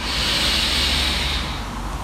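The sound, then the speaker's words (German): A deep breath drawn in through the nose: a steady, airy hiss that holds for about a second and a half, then eases off, with no talk over it. “Nimm nochmal einen tiefen Atemzug durch die Nase”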